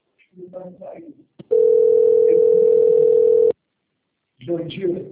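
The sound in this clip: A steady telephone dial tone sounds while a call is placed, one flat mid-pitched tone lasting about two seconds, with brief stretches of people talking before and after it.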